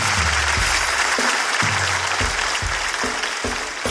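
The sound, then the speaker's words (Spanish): Audience applause rings out steadily for a storyteller, dense and even throughout, over low, shifting bass notes underneath. “Un aplauso para mi amigo. Un aplauso para mi amigo.”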